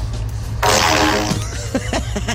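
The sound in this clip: A fart is blown into a pipe in a hardware store. It gives a loud, buzzy tone lasting about a second with a ringing, resonant quality, followed by a few fainter puffs over a steady low hum.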